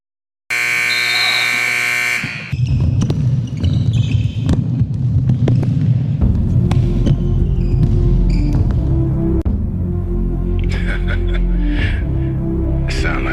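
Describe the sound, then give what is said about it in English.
Viking-style drum music: after a harsh, loud buzzing tone at the start, a heavy pounding drum beat drives on steadily beneath low droning tones and bright accents. “sound like some Viking music, don't it?”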